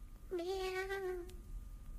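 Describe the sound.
A single drawn-out cat meow, about a second long and nearly steady in pitch, faint over a low background rumble.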